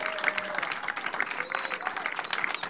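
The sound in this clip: Audience applause welcomes guests onto the stage at a live comedy show, a dense, steady patter of many hands clapping with crowd noise mixed in throughout.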